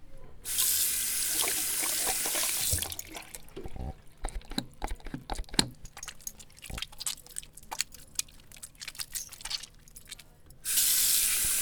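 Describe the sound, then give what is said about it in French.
Water runs from a tap into a sink as hands are washed before a meal. A steady hiss lasts about two seconds, followed by scattered soft clicks and clatter, and then the water runs again at the end. “On va se laver les mains avant le repas.”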